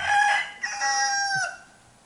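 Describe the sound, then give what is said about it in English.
A pet rooster crows once, a loud, bright cock-a-doodle-doo lasting about a second and a half with a rising opening and a long sustained, slightly falling final note that cuts off sharply, followed by quiet. “Does Waldo hear that rooster crowing?”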